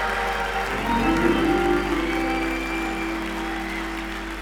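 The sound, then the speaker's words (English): Audience applause and cheering at a gospel praise celebration: a dense, steady wash of clapping with a few whooping cheers early on, loudest near the start and slowly tapering. “Put your hands together and praise the Lord for these wonderful voices and musicians. Come on, everybody. Make some noise in the house tonight for the Lord.”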